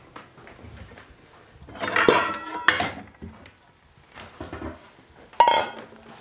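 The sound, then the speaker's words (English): Leeks, lemon zest, salt, pepper and olive oil are mixed by hand in a bowl. Soft rustling and squelching come with a few louder clinks and knocks against the bowl, between quieter stretches. “Just gonna mix everything together with my hands as usual.”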